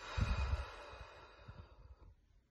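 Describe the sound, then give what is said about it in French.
A deep, soft breath during a guided relaxation exercise, breathy and faint, with a slightly stronger start that trails away into quiet. “prend une grande inspiration par le nez. Et souffle.”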